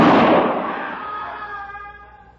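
A single sharp gunshot from a frontier shootout against hidden attackers bursts out loudly and rings into a long fading tail over about two seconds, with no voices.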